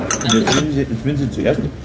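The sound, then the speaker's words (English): Fork clinking against a plate while chasing a slippery boiled white sausage (Weisswurst), a few light, bright metallic chinks and scrapes of cutlery on crockery. “As I try to sample a Gassner Weisswurst, the boiled white sausage slides around the plate, evading my fork”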